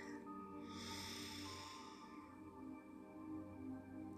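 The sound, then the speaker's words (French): A slow, deep breath drawn in during a guided meditation on grief: a faint, airy inhale that swells and then fades, with steady soft tones sustained underneath. “en laissant monter le souffle à l'inspire, depuis les pieds jusqu'au sommet de la tête. Allez-y. J'inspire.”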